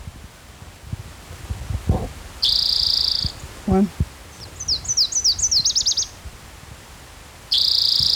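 A warbler sings a quick run of high, sharp chirping notes in the middle. Steady high buzzing tones come before and after it, and a few low knocks sound earlier.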